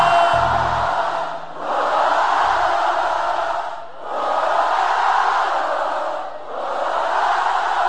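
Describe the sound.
A large crowd chants loudly in long, sustained vocal waves at a live show, each swell held for a couple of seconds with brief dips between them.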